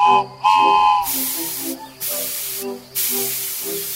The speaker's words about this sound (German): Klein, aber fein, unsere Dampflok. Sie kann auch fahren.